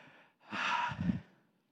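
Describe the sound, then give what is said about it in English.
A church audience taking a deep breath together, heard as one long breathy swell that sinks into a lower rushing sigh, alone. “Can you take a breath with me, everybody?”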